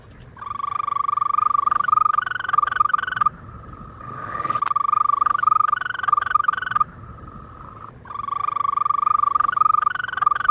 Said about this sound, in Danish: Det er selvfølgelig den grønbrogede tusse, som vi hører det her.